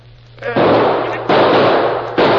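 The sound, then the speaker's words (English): Gunshots fired across a canyon: three loud, sharp-onset bursts, each trailing into a sustained rush of noise, over a low steady hum. “They're shooting over our heads now, but if they drop their fire, we're trapped.”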